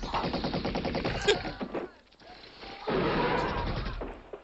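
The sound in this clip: Machine-gun fire in an action film: loud, rapid bursts of sharp shots that thin out briefly around the middle, then return as another dense, sustained volley.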